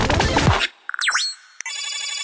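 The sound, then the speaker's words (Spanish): Electronic telephone ringtone for an incoming call: bright synthetic beeps and a swooping chirp that dips and rises, then a rapid, steady trilling pattern, after a short burst of busier sound fades out. “Llamada entrante.”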